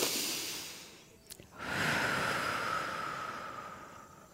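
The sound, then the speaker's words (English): A deep breath drawn in and let out, heard as a broad, airy rush of air. It dips briefly, then swells into a longer, steady whoosh that slowly fades. No voices. “we're going to take another breath, because I feel like that was a rather long rant. Here we go. For me, we're going to have one together.”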